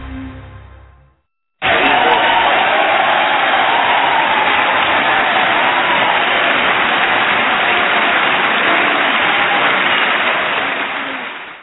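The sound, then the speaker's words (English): A live studio audience cheering and applauding, a loud, dense roar that starts abruptly after a short silence, holds steady for about ten seconds, then fades. “Beautiful. That wasn't canned at all. That's a real audience, ladies and gentlemen, right there.”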